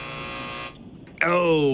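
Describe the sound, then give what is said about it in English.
A quiz-game answer buzzer goes off in an abrupt, harsh, harmonic buzz near the end. It holds steady and loud after a brief quiet pause. “Buzzer.”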